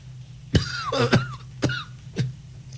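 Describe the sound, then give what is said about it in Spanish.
Harsh coughing from a person who has briefly choked: four sharp, raspy coughs in an uneven rhythm, with strained, throat-clearing sounds between them. “Que hasta gripe te dio. No, me dio como que me ahogué un poco ahí.”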